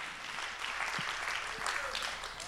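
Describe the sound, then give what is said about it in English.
A church audience claps hands in praise, a steady, fairly soft wash of many hands clapping together without pause, with faint voices mixed in underneath. “Clap your hands and give God the praise.”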